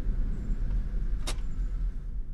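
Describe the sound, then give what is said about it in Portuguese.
A deputy's car pulls up and parks in front of a house, heard as a steady low engine rumble throughout with one short, sharp click near the middle. “Um pouco mais tarde, o carro do deputado Macema estaciona na frente da casa da tia”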